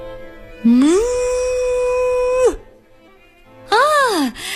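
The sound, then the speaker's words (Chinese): A cow moos twice as a signal that a washing machine has finished its cycle: first a long, steady call that rises at the start, then a shorter arched call after a pause. “奶牛叫了一声，这是洗衣服已经洗好的信号。”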